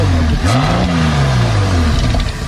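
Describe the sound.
A car engine revs hard, its steady mid-pitched drone surging and easing as the pitch bends up and back down, loud and continuous with no voices over it.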